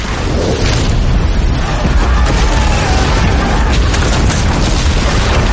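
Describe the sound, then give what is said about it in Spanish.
Part of a stone tower collapses onto a crowded courtyard, giving a dense, continuous roar of crashing rubble and deep rumbling that stays loud throughout. “Parte de una torre se derrumba sobre un patio lleno de gente.”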